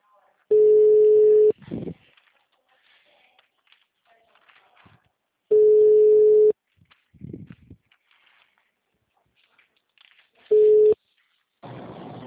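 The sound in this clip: Ringback tone sounds while a recorded telephone call is being placed: three steady mid-pitched tone bursts, each about a second long and spaced roughly five seconds apart, with faint rustling and clicks in the gaps.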